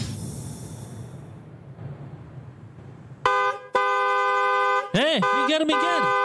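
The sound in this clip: Car horn honking over a low traffic rumble: two sustained, steady blasts separated by a brief break, then a few short, wavering honks.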